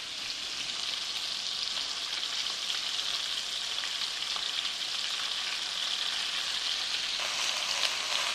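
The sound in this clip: Skewered cubes of marinated fish shallow-fry in a pan with a steady, dense, crackling sizzle that carries on unbroken from start to finish, with no voices.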